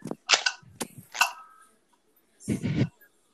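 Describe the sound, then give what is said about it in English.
A Nerf gun firing, giving a few sharp, snappy pops in quick succession, then a pause and a longer rattling burst, fairly quiet overall. “That is a Nerf gun. Literally sounded the exact same.”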